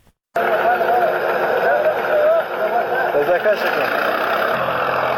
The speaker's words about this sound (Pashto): دا د هلمند په نوزاد ولسوالۍ کې پر ټراکټور د کوکنارو د کښت اړولو غږونه دي چې د طالبانو سیمه ییزې ادارې له رسنیو سره شریک کړي دي.